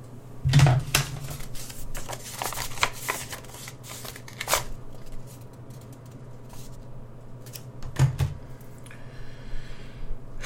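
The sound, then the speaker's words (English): A letter envelope is torn open, heard as many dry paper rustles and crisp tearing bursts. Louder rips cluster near the start and again later, with quieter crinkling in between. “And I am wasting my time for even debating what it is that this letter contains. I'm tearing it open.”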